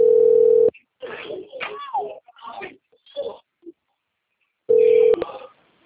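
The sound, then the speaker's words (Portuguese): A mobile phone call rings out with two steady, buzzing ringback tone bursts, one at the start and one near the end, separated by a stretch of people talking. “Tá ligando no seu celular.”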